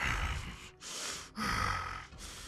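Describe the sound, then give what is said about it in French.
Labored breathing comes from a hunched creature held by two heavy chains. A few heavy, raspy breaths in and out follow one another with short pauses between them, and no voice can be heard. “Elle est voûtée sur elle-même, puis elle respire péniblement.”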